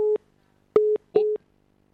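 Busy tone after a dropped phone call: three short, steady mid-pitched beeps separated by brief pauses. The tones are loud and sound alone with nothing else around them.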